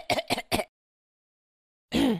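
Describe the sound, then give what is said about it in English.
A person imitates a night-time cough with three quick, fairly loud hacking bursts in a row. A silence and then a longer voiced sound follow. “I developed a cough. Okay. And I had a really bad cough for like 2 weeks. Yeah. And then it went away. And now it's like every other night. I'll wake up and just be like,”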